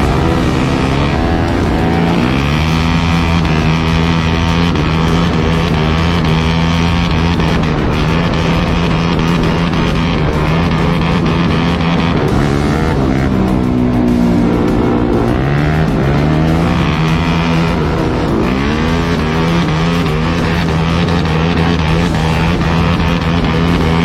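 A car drifts with its engine roaring loud and continuous. The revs rise and fall throughout, with faint tire squeal in places.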